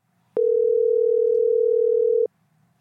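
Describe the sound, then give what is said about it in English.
A telephone dial tone sounds while someone is being called: one steady, unbroken tone at a single pitch that lasts about two seconds and then cuts off cleanly, with nothing else heard. “Let's give him a call.”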